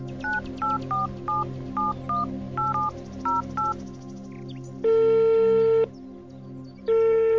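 A telephone number is dialled on touch tones from a municipal office phone: many short, rapid two-tone beeps in quick succession, then two long, steady ringing tones separated by a pause.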